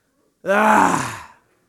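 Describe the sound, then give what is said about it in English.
A church audience groans together on cue, producing one low, drawn-out groan that swells quickly, lasts about a second and then fades, heard alone without talk. “Just turn to your neighbor and just give him a little groan real quick”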